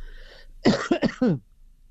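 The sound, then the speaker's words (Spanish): A man with a cold coughs, a short burst of three or four harsh, loud coughs in quick succession after a brief faint lead-in, then silence. “Perdone con la tos, pero estoy un poco resfriado.”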